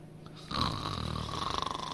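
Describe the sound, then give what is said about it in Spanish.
Snoring in a spooky haunted-house attraction: after a quiet start, a rough, rattling snore begins midway and continues as a rapid pulsing drone, fairly faint, with no talk over it. “Oye, que llevamos viendo esto de los ronquidos 2 horas ya.”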